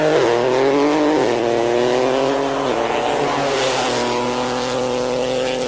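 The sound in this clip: A rally car engine from a World Rally Championship round in Paraguay roars steadily at high revs. Its pitch dips briefly twice, like gear changes, then climbs again, loud and continuous with no talk.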